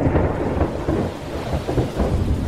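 Thunder rolls on in a low, heavy rumble with rain in the evening, a steady broad roar that swells slightly in places, with no voices.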